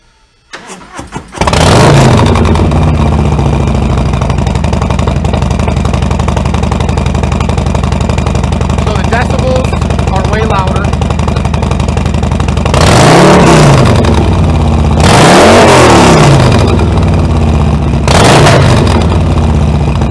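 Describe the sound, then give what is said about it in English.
A Harley-Davidson motorcycle with a Bassani 2-in-1 exhaust, Stage 2 cam and Screaming Eagle air filter starts up and settles into a steady, loud, deep idle rumble, then gives three sharp throttle revs near the end. “This bike offers a 2-in-1 Bassani exhaust system, a Harley-Davidson Screaming Eagle air filter, and it also has a Stage 2 cam in it as well.”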